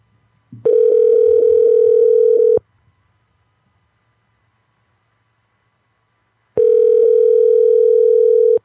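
Ringback tone of an outgoing telephone call ringing out: two long, steady, loud electronic tones, each about two seconds, separated by several seconds of silence.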